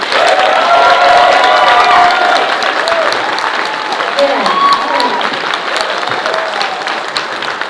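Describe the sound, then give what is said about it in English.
Loud audience applause and cheering welcoming a guest, a sustained, dense roar of clapping with excited voices and shouts mixed throughout. “Put your hands together for Mr. Greg Nicotero.”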